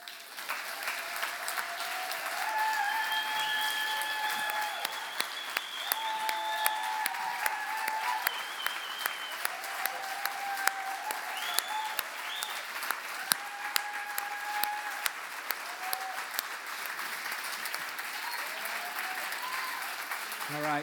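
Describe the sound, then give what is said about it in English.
Audience applause at a farewell welcome for a long-serving member of a group: steady, continuous clapping from many hands that holds at an even level for the whole stretch. “Well, this round of applause is just the warm-up, because we're going to do a proper one.”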